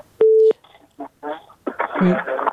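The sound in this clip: A short, steady telephone tone sounds as a listener's call-in is put through on the line. Voices talk after it.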